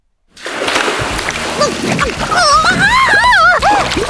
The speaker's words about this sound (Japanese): 名探偵がお湯の中に沈められてるわ。